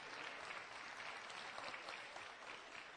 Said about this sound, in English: So you can give yourselves a hand for that.